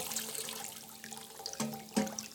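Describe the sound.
Water is poured over a person's head during a baptism, a faint and steady trickle and splash of liquid with a few brief louder splashes near the end.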